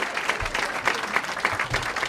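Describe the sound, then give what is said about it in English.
Audience applause at a humorous talk: dense, steady clapping from a crowd that stays at an even, fairly loud level throughout. “I will share it with you, and then I will pause for your spontaneous applause.”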